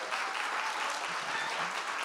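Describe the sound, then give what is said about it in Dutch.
Audience applause fills a hall at a club event, a dense, steady wash of many hands clapping at even loudness throughout, with no single claps standing out. “Ja, applaus.”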